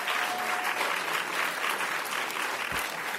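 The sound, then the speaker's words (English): Dense, steady applause from a stand-up comedy audience welcoming a comedian on stage, a continuous wash of clapping hands lasting the whole stretch. “Give a huge welcome to Donal Sharpson.”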